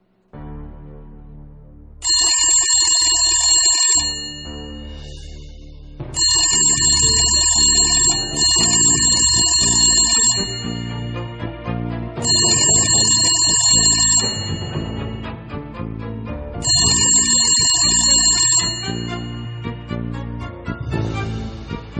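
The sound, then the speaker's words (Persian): An unanswered telephone rings, its bright electronic ring repeating in several long, steady bursts of about two seconds each, separated by short pauses over a faint background. “جواب نمیده خونه رو بگیری خونه رو گرفتم همراهشون رو بگیری”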